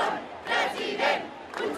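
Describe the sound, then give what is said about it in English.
Crowd at a Barcelona rally for Catalan independence chanting for exiled leader Carles Puigdemont. Loud shouted voices rise and fall in three rhythmic surges over a constant roar of the mass of people. “The crowd shouting Puigdemont for president, referring to exiled leader Carles Puigdemont.”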